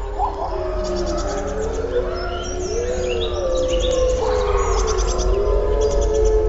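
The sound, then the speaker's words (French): Gray wolves howling, with several long, gliding tonal calls that overlap and sustain steadily throughout, forming a continuous chorus of howls with no talking. “le célèbre hurlement qui permet de regrouper les loups de la meute et d'éloigner les autres meutes”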